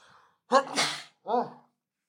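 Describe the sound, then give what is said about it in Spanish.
A single sneeze bursts out with a voiced catch that breaks into a loud, breathy blast. A short voiced sound follows soon after, with silence around both. “Y, ay, ya va, tengo que estornudar.”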